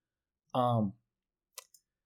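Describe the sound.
A computer mouse clicks twice, quick and faint, while someone browses a basketball game's box score. The clicks come right after a short voiced sound, with silence around them.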